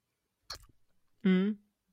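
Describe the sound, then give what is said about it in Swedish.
Wet smacking mouth sound as something is pushed out with the tongue: one short sticky smack trailed by faint clicks, then a brief hummed voice. “Men det låter så här. För jag tar ju ut den med tungan. Mm. Så det blir lite smaskljud, kan jag tänka mig så här.”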